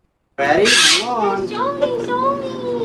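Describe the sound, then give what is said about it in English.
A bird calling with a harsh, loud squawk at the start, followed by wavering, warbling tonal calls that keep going to the end. “someone fucking do something about that bird”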